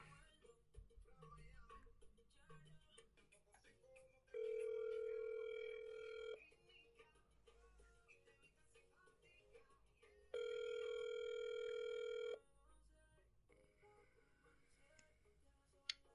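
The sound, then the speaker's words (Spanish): A telephone ringback tone sounds as a call is placed, two long, steady, even-pitched rings separated by a quiet pause, over a faint background. “Entonces vamos a realizar la llamada en este instante.”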